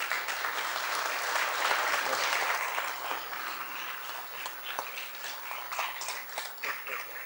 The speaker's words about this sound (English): Secretary Cohen leading that cheer.